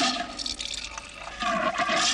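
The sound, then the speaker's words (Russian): Carbonated soda is poured into a glass, making a splashing, gurgling stream at moderate loudness that surges and eases unevenly for about two seconds. “Миша наливает газировку в стакан, собираясь пить.”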